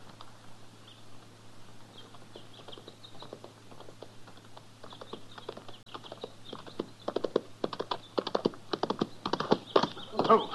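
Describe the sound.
Horses' hooves clip-clop as riders approach on horseback. Sharp, rhythmic hoof strikes grow louder and denser toward the end, over a steady low hum.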